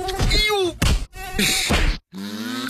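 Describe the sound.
Mosquito buzzing in an Autan insect repellent advert, a loud wavering whine with gliding pitch, heard in several bursts separated by brief breaks.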